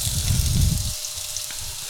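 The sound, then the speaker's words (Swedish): Shallot onions sizzle in about three tablespoons of rapeseed oil in a hot pan, a steady bright hiss with low clattering rumble during the first second that then drops away. “har jag i tre matskedar kanske av rapsolja i en het panna. Eh, I med löken.”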